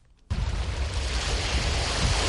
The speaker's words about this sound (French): Ici, les vagues viennent accueillir les eaux usées du canal 6 qui traverse une zone industrielle à quelques encablures du port de Dakar.